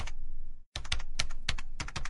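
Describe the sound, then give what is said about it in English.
A password is typed on a computer keyboard in quick runs of crisp clicking keystrokes, broken by one short pause early on. “Tony types in his password.”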